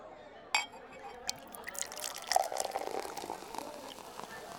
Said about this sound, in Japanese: すみません。飲み物を注いでいただいてしまって。